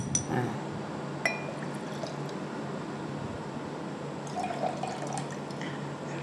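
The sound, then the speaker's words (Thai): Liquid pouring as a stirred mixture is tipped into a dish, a steady wet wash with a few soft drips and splashes and no voices. “นี่คือส่วนที่เหลือที่เราคนแล้วนะคะนะอันนี้เราก็ใส่ตามลงไปเลย”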